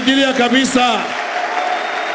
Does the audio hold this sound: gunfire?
no